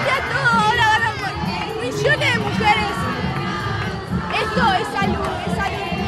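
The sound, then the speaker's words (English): Crowds outside the Argentine Congress erupt in loud cheers and screams of joy as abortion is legalized, with a voice shouting in Spanish above the sustained roar. “Massive crowds who had been standing vigil as the Senate completed their voting lined the plaza near the Argentinian Congress. Screams of joy, tears of relief”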